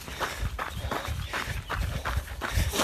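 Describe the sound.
Footsteps of people walking, a steady run of many even steps that repeats throughout at moderate loudness, with no voices heard.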